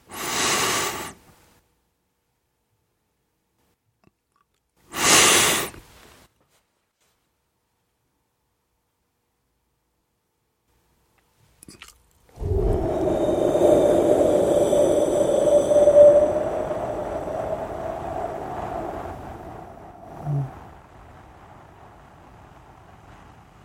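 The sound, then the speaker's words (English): A slow exhale through the mouth during a breathing exercise: a long, soft, airy whoosh that holds steady for around ten seconds and then gradually tapers away. Two short breathy bursts come earlier, separated by silence. “And then slowly exhale through your mouth. So it may sound something like this.”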